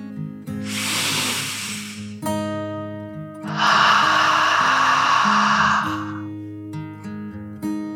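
A deep breath in and then out over soft, sustained music. Two long rushes of airy hiss, the second fuller and longer, rise above the steady tones.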